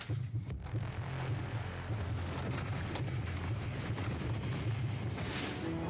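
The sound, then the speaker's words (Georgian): A rapid heartbeat of about 108 beats per minute throbs faintly and steadily, as low, muffled pulses over a soft hum, alone and without talk. “ჩემი პულსი წუთში 108 დარტყმა.”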